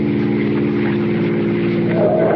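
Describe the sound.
A car accelerates on a road with a steady, droning engine hum rich in low harmonics, growing slightly louder and higher toward the end.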